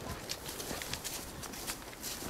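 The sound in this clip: Horse hooves clop at a walk during a riding lesson, a steady run of many soft hoof falls over a faint, hissy background.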